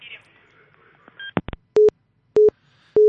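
Telephone busy tone after a caller on a radio phone-in line hung up: a few faint clicks, then three short, evenly spaced, steady beeps at one pitch, loud and alone.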